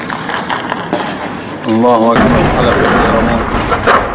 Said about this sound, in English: first the rebel tank can be seen rolling into position, then there's a brief face-off, some gunfire, and the government tank is hit.